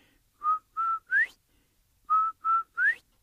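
Whistling imitates a quail's call during a Cherokee story: two faint phrases of three clear notes each, separated by a pause, with two steady notes followed by a third that slides upward.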